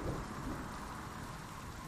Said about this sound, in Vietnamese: 11:30, lúc này trời mưa vẫn nặng hạt.